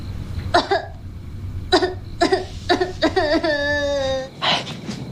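A person crying: a series of short, broken sobbing gasps, then a drawn-out whimpering wail and a final sob.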